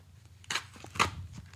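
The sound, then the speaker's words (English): Paper ripping as someone tears open an envelope that is taped and stapled shut, giving a few short, crackly tearing bursts of moderate loudness with quieter rustling in between. “Or you know what? Screw it. You might be able to with the tape. Just rip that bad boy open.”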